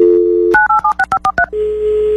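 A telephone dial tone followed by touch-tone dialing: a steady hum is cut off by seven quick, evenly spaced beeps of differing pitch, then a steady lower tone continues. The sounds are loud and clear, with no voices.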